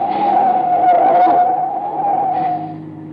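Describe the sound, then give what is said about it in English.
Tires squeal as a car skids on a dark road at night, a loud, steady, high-pitched screech wavering slightly for nearly three seconds before fading. “Hey, we're skidding. Hey, brace yourself. Watch out.”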